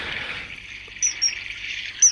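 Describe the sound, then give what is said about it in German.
Common kingfisher calls: three short, shrill, high-pitched whistles, two close together near the middle and one near the end, over a steady background hiss. “Und zwar ist das der Eisvogel.”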